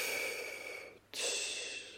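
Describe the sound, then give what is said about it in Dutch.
A breath is drawn in through the nose and released out through the mouth, heard as two soft, airy hissing phases split by a brief pause, the second starting more sharply. “In door de neus. Uit door de mond.”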